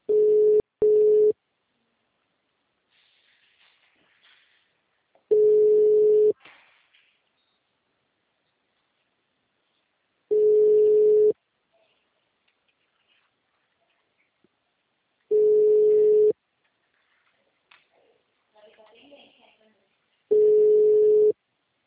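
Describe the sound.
Telephone line ringing while a call is placed: five steady, mid-pitched tone bursts about a second long, spaced roughly five seconds apart, with faint low sounds in the gaps.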